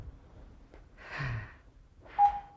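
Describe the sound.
Someone breathes calmly in and out through a mouthpiece device held in the mouth. The breaths are faint and airy, and the last one ends in a brief, thin whistling tone.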